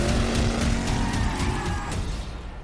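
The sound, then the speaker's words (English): Roaring car engines from the trailer for the film Furiosa: A Mad Max Saga. A loud, dense rumble with tire-squeal tones runs throughout, then thins out and fades over the last moment. “That was the trailer for Furiosa, a Mad Max saga, the prequel to the previous movie from George Miller”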